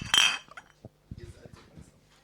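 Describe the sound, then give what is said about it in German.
Glasses clink together in a toast over Spaten Münchner Hell beer, a bright burst of clinking at the start followed by a few faint, scattered knocks and taps. “Wollen wir anstoßen offiziell? Haben wir das schon gemacht? Nee, gell? Wir haben es noch nicht gemacht.”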